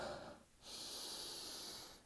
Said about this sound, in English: Now breathe in, breathe out, lock onto that feeling. One more breath in.